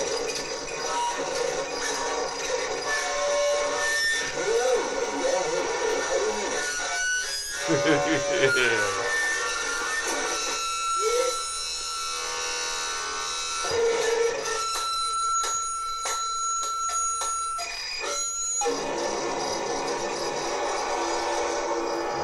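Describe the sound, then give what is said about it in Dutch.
Shouting and wailing into a telephone microphone covered with a plastic bag, heard as a harsh, distorted, crackling wash. Bending vocal tones rise out of the noise, and it stays loud throughout. “hij zit nu met een plastic zak over een telefoonmicrofoon heen te schreeuwen en in te uithalen.”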